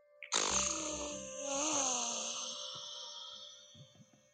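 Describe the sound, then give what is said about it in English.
Air forced out through a badly blocked nose during a slow nostril-breathing exercise: one long, congested exhale with a whistling, snore-like rasp that holds for a few seconds and then fades, followed by a few faint soft sounds. “Sorry about the sound. I've got really blocked nose.”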